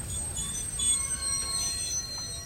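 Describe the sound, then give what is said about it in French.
Train wheels squeal faintly as a train brakes while rolling slowly onto a long bridge: thin, high steady tones shift and overlap above a soft low rumble of the moving train. “le train s'engage sur un pont, un long pont, les roues crissent, nous freinons, et le train s'arrête exactement au milieu du pont.”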